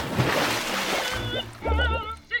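Water splashing and sloshing as a print made on an Epson Stylus C84 printer with Durabrite inks is submerged in a swimming pool, a continuous churning wash followed by lower gurgling surges.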